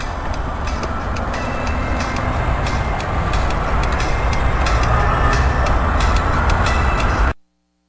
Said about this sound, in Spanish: ¡Va a ir el tren! ¡Me pongo al medio del tren!